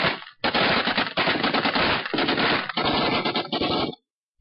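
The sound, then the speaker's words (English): A base returns fire in several long bursts of rapid automatic gunfire, loud and sharp, separated by brief pauses before cutting off into silence. “Then the base starts to return fire, just as our cameraman Fred Scott is filming.”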